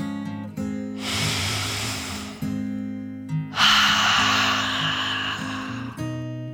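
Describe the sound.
A dragon takes a deep breath in a dark cave: a long, airy, hissing inhale, a brief pause, then a louder, rougher exhale, both over soft sustained music.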